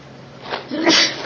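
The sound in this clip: A single short sneeze interrupts a religious lecture on Quranic commentary. It is a brief, breathy burst that quickly rises to a sharp peak and then fades.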